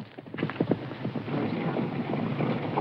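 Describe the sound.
Horse hooves clip-clop as a rider sets off into the wilderness, a few uneven hoof strikes early on, then a steady rushing, windy noise that covers the rest.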